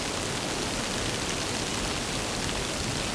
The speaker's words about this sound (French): Une fine pluie éparse s'écoule.